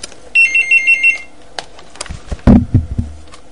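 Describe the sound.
A telephone rings with an incoming call, sounding five quick, high electronic beeping pulses, followed by clunks and rustling as the handset is handled.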